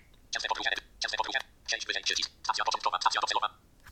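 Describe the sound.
Keyboard typing and clicks as start and destination stations are entered into a train travel app, heard as about four separate bursts of rapid keystrokes with short pauses between them.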